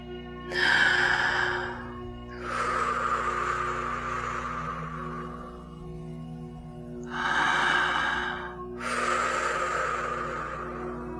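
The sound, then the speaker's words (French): Two slow, deep breaths, each a shorter airy inhale followed by a longer, gradually fading exhale, over a steady low drone. “Prends une dernière inspiration profonde. Expire lentement.”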